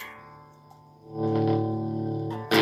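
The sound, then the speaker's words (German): An electric guitar plays through a used amplifier that sounds off. A distorted, warbling sustained chord fades, then a louder strummed chord swells, and a sharp new attack hits right at the end. “hast du einen neuen Gitarrenverstärker gekriegt? Ja, ganz neu ist er nicht. Er ist ein bisschen gebraucht, aber ich mag ihn trotzdem. Ja. Und jetzt wollen wir ihn nochmal ausprobieren, weil vorher hat er ein bisschen komisch gelungen.”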